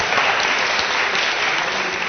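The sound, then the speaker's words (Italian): Applause from an audience for the volunteers, dense and steady clapping that keeps an even level from start to finish. “A sedere, grazie, un applauso ai volontari.”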